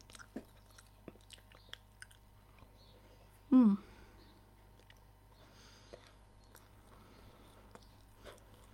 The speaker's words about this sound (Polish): Są dwie warstwy, to się najwyżej podzielę. Jedną warstwę już prawie całą zjadłam.